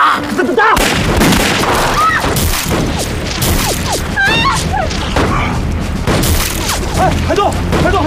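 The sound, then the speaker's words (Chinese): Gunfire from pirates: many sharp shots and heavy booms crowd together in a loud, continuous barrage, with voices shouting over the shooting. “海盗！这海盗也开枪火”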